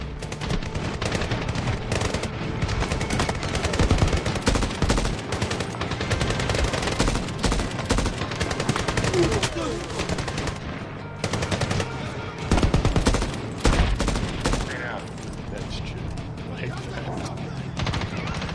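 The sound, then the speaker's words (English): Video game shootout gunfire, with rapid machine-gun bursts and overlapping shots rattling almost continuously for the whole stretch, loud and dense with only brief dips between volleys. “Okay, they're all firing at you? Oh, jeez. Get behind a box or something.”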